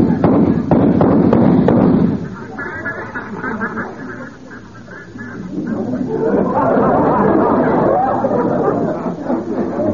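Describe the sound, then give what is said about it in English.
Gunshots ring out as duck hunters fire at an incoming flock: a rapid burst of sharp cracks packed into the first two seconds, followed by people talking and calling out over the ongoing noise. “Here comes another flock. Now, let him get closer now. Let him get closer. Don't shoot too fast now, you guys.”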